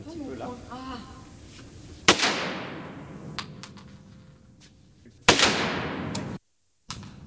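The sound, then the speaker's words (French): Two loud gunshots come from a loaded firearm during a shooting session. Each sharp crack trails off in a long, fading tail, and a voice speaks briefly before the first shot. “L'arme, elle est chargée, elle est prête au tir.”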